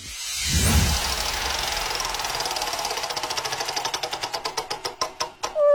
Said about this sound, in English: on Thursday I'll be spinning the wheel a little something like this.